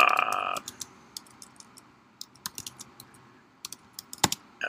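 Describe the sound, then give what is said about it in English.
Typing on a computer keyboard: scattered, irregular keystrokes that click faintly, some in quick clusters and others spaced apart, after a brief tonal sound at the start. “Hold on a second. Let me type this in.”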